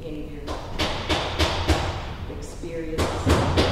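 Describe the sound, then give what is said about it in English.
Heavy thuds and slams from a large construction project just outside a downtown Wausau gym undergoing expansion: a steady run of evenly spaced impacts, a pause, then another quick series over a constant low rumble. “That's the sound of a massive construction project that's going on just outside the gym.”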